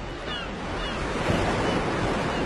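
Sea waves wash in a steady, broad roar of surf, loud and continuous with a slight swell midway and no distinct breaks.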